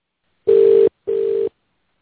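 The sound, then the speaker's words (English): Telephone line tones sound while a call is redialed: two steady, mid-pitched beeps of about 0.4 seconds each with a short gap between them. The second is slightly quieter, and there is no talk. “I dialed in. I got a busy signal. All right, let me try one more time.”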